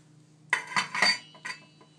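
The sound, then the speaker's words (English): A lid is lifted off a cooking pot with a few bright metallic clinks and clatters in quick succession, followed by one softer clink and then quiet. “Stupidly take the lid off with my bare hand.”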